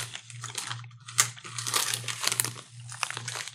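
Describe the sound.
A bag of homemade sweet ginger chili snack sticks crinkles as someone handles it, in irregular bursts of crisp rustling and crackling over a steady low hum.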